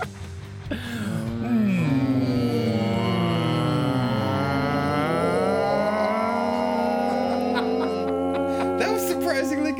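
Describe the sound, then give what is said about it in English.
A group of people vocally imitate the THX sound, their voices gliding in sliding tones that converge into a loud, sustained chord held for several seconds. “Now let's do the THX sound.”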